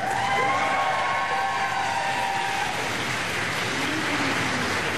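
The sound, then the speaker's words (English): Foreign Office staff cheering and clapping as Ukraine's President Zelensky arrives at 10 Downing Street, a steady, fairly faint wash of applause and crowd noise with a thin tonal whine running through it. “Mr. Zelensky was cheered by staff from the Foreign Office as he arrived at 10 Downing Street.”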